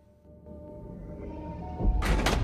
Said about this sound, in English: A window slides open, curtains billow out, and the chandelier rattles.